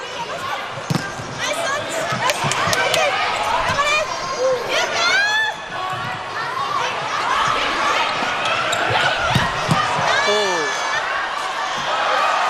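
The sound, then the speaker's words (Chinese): A volleyball struck on a serve by a middle blocker during a match, a few sharp impacts standing out from crowd noise, with commentators talking over it throughout. “换个副攻上来发球， 哦，球发得不错”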